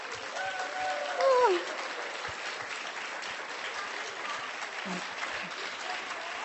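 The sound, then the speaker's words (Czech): Applause from an audience at a gathering where attendees from Slovakia are asked to stand: steady, continuous clapping from many hands that holds an even level for the whole clip. “zbytek Slovenska až povstane a zatleskáme”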